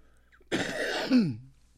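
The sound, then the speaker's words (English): A radio host clears his throat once at the microphone: a rough rasp about a second long that ends in a short voiced grunt falling in pitch. “excuse me, attempting to clear my voice”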